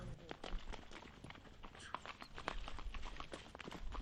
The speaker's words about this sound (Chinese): 今天一大早就来到马圈，跟小儿子哈纳提、孙子阿依丁一起治疗骨折的马。